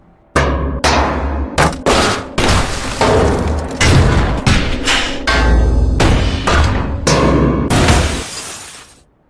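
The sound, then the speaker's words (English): A car being smashed up in a beat 'em up video game bonus stage: many heavy thuds, booming crashes and glass shattering in quick, irregular succession, loud throughout, ending in a longer crash that fades away. “I need to beat the shit out of this Vauxhall Corsa for some bonus points.”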